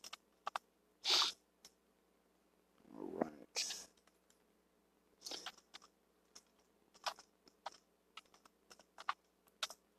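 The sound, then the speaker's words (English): Computer keyboard clicking from a key stuck on the keyboard: scattered sharp, dry taps and short bursts of typing, irregular in rhythm and fairly quiet. “And I got a key stuck on my keyboard here.”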